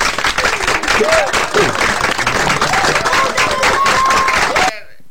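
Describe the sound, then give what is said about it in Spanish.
An audience gives a guest an ovation: loud, dense applause mixed with crowd voices and whoops, holding strong for several seconds before cutting off abruptly near the end. “¡Qué ovación, Pucho!”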